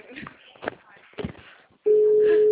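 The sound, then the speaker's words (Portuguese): Telephone ringing tone on an outgoing call: a voice and soft shuffling come first, then a loud, steady single-pitch tone starts abruptly and holds unbroken to the end. “eu ligando no telefone da Polpa, colocando meu fone pra ouvir.”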